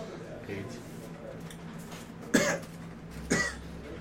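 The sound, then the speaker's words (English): A voice imitates a hunched gnome coughing and hacking fiercely: two harsh, raspy coughs about a second apart stand out over a faint, quiet background. “coming down the stairs, hunched over, is a gnome who is like coughing and like hacking like something fierce.”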